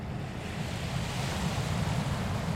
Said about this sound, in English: Just getting towards sunset, 4:45, Berwick-upon-Tweed Harbour, and there's this beautiful golden light descending into the west,